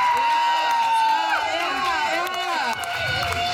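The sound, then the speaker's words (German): Cheering and applause from an audience at an art exhibition, celebrating the artist, with raised voices and whoops over a steady wash of clapping. “Also ein riesen Applaus für den Künstler dieser wunderschönen Kunstausstellung,”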